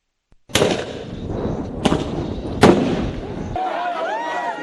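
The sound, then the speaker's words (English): Police firing tear gas at anti-government protesters in Nairobi, Kenya: three loud, sharp bangs with crackling rumble between them. The roar then gives way to wavering, higher-pitched sounds. “The sounds of police using tear gas on protesters in Kenya.”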